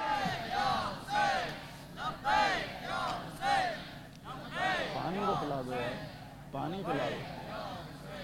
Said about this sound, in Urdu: میں نعرہ لگواؤں گا۔ نعرے کا جواب میری زینبی ماؤں بہنوں نے بھی دینا ہے، میرے جوانوں نے بھی دینا ہے، سب مل کے نعرے کا جواب دیں گے، لبیک یا حسین۔